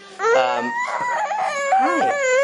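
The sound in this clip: A baby boy fusses and whimpers in short, wavering cries. The pitch wobbles up and down between brief catches of breath.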